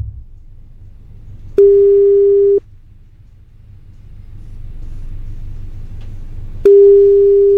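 Two ringback tones sound on a telephone line before the call is answered. Each is a steady, level beep lasting about a second, with a long pause between them over a low, continuous rumble.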